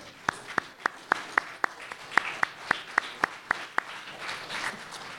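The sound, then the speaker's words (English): A church audience claps for fathers in a crisp, steady rhythm, many evenly spaced sharp claps over a low murmur of background noise. “But would you stand if you're a father so we can give you a round of applause?”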